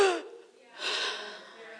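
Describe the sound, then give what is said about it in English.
A voice imitates a sharp gasp for air, like surfacing after holding breath underwater: a brief voiced catch followed by a long, loud, breathy inhale that slowly fades. “it was like I had been holding my breath underwater and I finally came up and it was like,”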